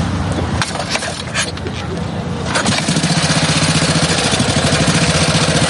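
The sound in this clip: An old Wehrmacht-era military motorcycle is started and settles into a steady, throbbing idle with an even pulsing rhythm. People talk over the first seconds before the engine note takes over.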